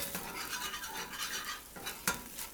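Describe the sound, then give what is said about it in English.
Curry paste and coconut milk are stirred in a pan, giving a continuous soft scraping and swishing with an uneven rhythm and a single sharper clink of the utensil near the end. “a couple of tablespoons of coconut milk in each pan and a couple of tablespoons of the curry paste. Not quite one-to-one, a little more paste to milk. So I'm stirring the blended one.”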